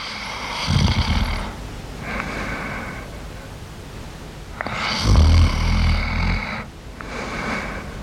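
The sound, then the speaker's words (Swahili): Adam snores in a deep sleep, giving two slow rounds of breathing. Each is a harsh, rasping low snore followed by a softer, wheezing exhale, with no talking. “Ndo papo mulungu akimbwiza Adamu usingizi unji.”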